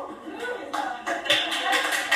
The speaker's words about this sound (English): Alright, witch is dead. Applause on one joke.